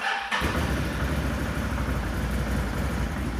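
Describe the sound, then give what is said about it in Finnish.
A quad bike engine starting: a brief near-silence, then the engine catches abruptly and settles into a loud, steady, rumbling run with no talking. “Näin lähtee mönkiä käyntiin.”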